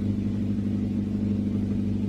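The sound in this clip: Steady low engine rumble of a car being driven erratically, a continuous even drone with no clear revs or breaks, and no voices.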